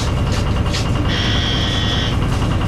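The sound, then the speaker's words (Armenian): A bus ticket validator gives a single sustained rejection beep when a ticket is scanned: a high, steady electronic tone lasting about a second over a constant rumble of bus noise. “մյուսի կտրոնն էլ սքանավորելիս մերժման ազդանշան է լսվում”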